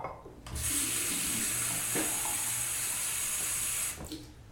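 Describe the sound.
Water poured into a glass from a tap: a steady hissing stream that starts abruptly, runs for about three and a half seconds, then cuts off, faint and alone.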